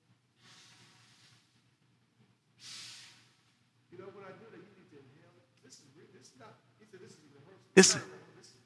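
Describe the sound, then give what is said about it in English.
People at a religious gathering breathing out loudly, a few hissing exhalations separated by quieter voices, ending in one strong, loud burst of breath. “The Holy Spirit is known as the what? Breath. The Ruha Kodesh. Give us that sound.”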